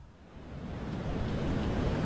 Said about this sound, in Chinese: 星空下，海浪拍打着青龙船